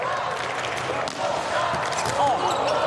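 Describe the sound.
A ball bounces before a serve at a men's volleyball quarterfinal, a few soft thuds set against steady loud crowd noise that stays level throughout.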